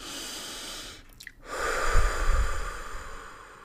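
Deep breathing during a guided spiritual meditation exercise: a soft airy breath, a brief pause, then a longer, louder rushing breath with a low rumble.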